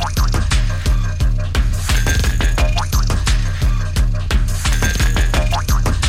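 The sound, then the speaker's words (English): Bouncy jaw harp twangs ride a stompy techno groove, with rapid springy notes over a steady pounding kick. The pattern is loud and repeats throughout. “He's created an infectious groove with those bouncy jaw harp sounds.”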